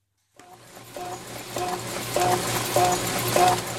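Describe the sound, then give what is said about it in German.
A newspaper printing press at the Muscat Daily starts up with a rhythmic mechanical clatter, a regular repeating beat that grows steadily louder as the machine gets going. “Am frühen Abend läuft beim Muscat Daily die Druckmaschine an, allerdings nicht für lange.”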